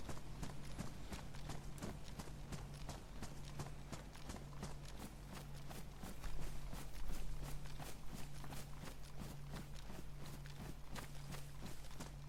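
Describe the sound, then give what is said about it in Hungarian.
Hoofbeats of a horse galloping in a video game: many quick, even thuds in a steady rhythm over a constant low hum. “Szerintem egyébként Dolinába most be sem megyek, hanem egyből fölvágtatok az építkezésre, és megnézem, hogy megvan-e a bázis.”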